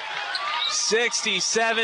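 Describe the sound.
A basketball is dribbled on the court in the final seconds of a high school Class 2A tournament game. The bounces sit under a commentator's steady voice, with bright crowd and shoe noise above.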